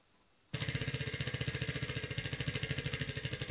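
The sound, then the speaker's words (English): A spinning prize wheel clatters after a brief quiet start, its pointer ticking in many rapid, even clicks that stay steady and fairly loud to the end. “let's see what she won. Let's spin the wheel.”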